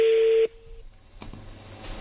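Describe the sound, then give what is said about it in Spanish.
A telephone tone sounds during a prank call, then cuts off as the call is diverted. One steady, buzzy tone holds for about half a second and stops abruptly, leaving faint line hiss and a soft click. “No, desvió la llamada. Tu jefa desvió la llamada.”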